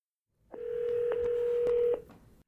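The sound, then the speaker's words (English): A telephone number is being dialed: one steady mid-pitched phone tone holds for about a second and a half, marked by a few faint clicks, then cuts off. No voices. “So we're going to dial up Alina Dillon, author of Mercy House, and break the news.”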